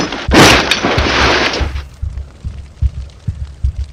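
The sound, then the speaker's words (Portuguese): A wooden object falls and breaks with a loud, sustained crash inside a burning house. A roaring burst of breakage gives way to many dull, low thumps that continue to the end. “O coração bateu muito rápido quando vi algo se quebrar estrondosamente perto de mim.”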